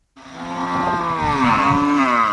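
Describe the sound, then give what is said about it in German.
Cattle mooing at a livestock market in Makurdi, Nigeria, herd animals of nomadic herders: one long, loud, low moo that swells and holds for about two seconds, alone without talk. “Die Kühe auf dem Viehmarkt der Stadt Makurdi”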